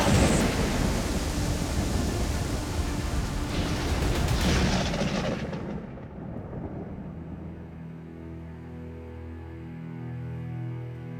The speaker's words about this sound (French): Cette affreuse tempête dure plus de 5 heures.